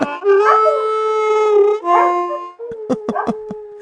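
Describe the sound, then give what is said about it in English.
Dogs give long, wavering howls and whines, then break into a quick run of short, sharp yapping barks. “Dogs are barking at you”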